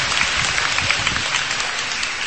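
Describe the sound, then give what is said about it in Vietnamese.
A round of applause from a church audience: dense, continuous clapping that holds at a steady, fairly loud level for the whole span with no voices standing out. “Wow, hay quá, chúng ta cho một tràng pháo tay.”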